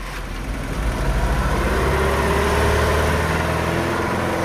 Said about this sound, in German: sprangen dann in den schnellen kleinen Wagen.